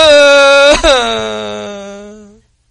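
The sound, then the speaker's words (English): An adult voice imitates a child's fake cry: one sustained, high, whiny wail with a brief catch near the start, slowly fading as it trails off. “I know when my daughter's crying because she didn't get her way, because it's a fake cry, it sounds like this.”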